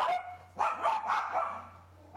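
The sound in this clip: Dogs barking: a few quick, faint barks in a loose cluster that fade into a quiet hum.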